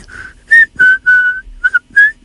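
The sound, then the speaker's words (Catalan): A person whistling a short series of clear, high notes of varying pitch, separated by brief pauses. “El xiulant és lo meu.”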